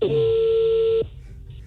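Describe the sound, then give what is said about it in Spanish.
A telephone tone as a call is dialed: one steady mid-pitched beep lasting about a second, then a quiet, faint background. “Ya está marcando.”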